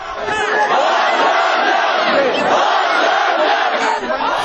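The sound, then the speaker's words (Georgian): Protesters on Baghramyan Avenue in Armenia chanting in unison at a rally against an electricity tariff increase: a loud, massed crowd of voices surging in rhythmic waves, with shouts rising and falling together. “შეძახილების ბაგრამიანი სომხეთი ფონზე დემონსტრანტებმა განაცხადეს, რომ აქციებს გააგრძელებენ”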